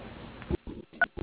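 Touch-tone dialing of an extension on a phone line, a few short electronic beeps separated by brief gaps, thin and band-limited like a call heard through a handset.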